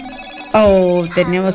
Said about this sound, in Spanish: Tenemos otra llamada telefónica.